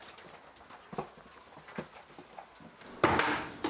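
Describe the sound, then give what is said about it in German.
Animal feed is placed into a feeding box in a predator enclosure, giving faint, scattered wooden knocks and soft thuds, followed by a louder rustling scrape near the end. “Gut, dann habe ich jetzt das richtige Futter und lege es dann in die Box rein.”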